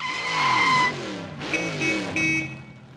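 A dark purple race car with a turbojet engine arrives, its loud engine note sweeping in pitch, with bursts of tire squeal and skidding.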